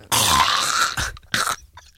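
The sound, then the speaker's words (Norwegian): A person gags as if on a knife, giving a long, harsh, breathy retch followed by a shorter, choking burst. The sounds are moderately loud and stand alone without speech. “Gagger du på en kniv, eller hva greier? Ja, det var en kniv. Er det sånn det høres ut? Sånn det høres ut når jeg gjør det.”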